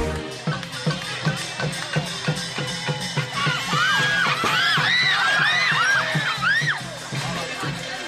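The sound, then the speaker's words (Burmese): Spectators yell and whoop at a Burmese Lethwei boxing match held in Thailand. A steady, evenly spaced pounding beat runs through it, and excited high shouts and whoops crowd together in the second half. “ရဲ့ရိုးရာဒီလုံတန်တွေအော်ဟစ်အားပေးနေကြတဲ့ပရိသတ်တွေရဲ့အတန်တွေနဲ့ဆူညံနေတဲ့မြမပြည်သားတွေရဲ့လက်ဝေးပွဲကိုထိုင်းနိုင်ငံရဲ့တနေရာမှာစီစီကားကားတွေ့နေကြတာပါ။”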